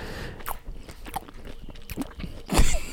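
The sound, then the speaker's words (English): Biting and chewing into an orange, with a few soft, wet, crunchy bites spaced irregularly and the loudest crunch near the end, all fairly quiet. “This is not ASMR. I just have to eat my orange.”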